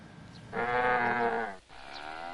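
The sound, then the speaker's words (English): A bleat-like call from a Maiwa yak in Hongyuan County, Sichuan, China: one loud, harmonic call lasting about a second, followed by a fainter, similar call. “It's early morning in Hongyuan County, southwest China's Sichuan Province. 27-year-old Mela is milking a local breed known as the Maiwa Yak.”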